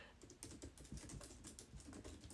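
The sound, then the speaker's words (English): Typing on a computer keyboard: many quick, faint keystrokes in an uneven but steady patter, with no voices. “I'm typing to myself to think what I'm going to write next”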